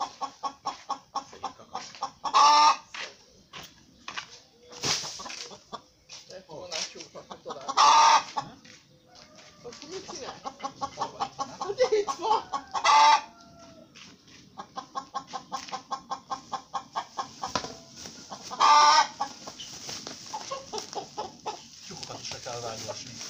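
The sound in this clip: A rooster crows loudly several times at regular intervals. Between the crows come steady runs of rapid, repetitive clucking that keep going through the whole stretch.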